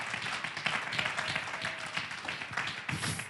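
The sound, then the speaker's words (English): A church audience claps their hands, producing a faint, uneven patter of many overlapping claps that rises and falls slightly over a few seconds. “If you believe that, would you clap your hands unto the Lord?”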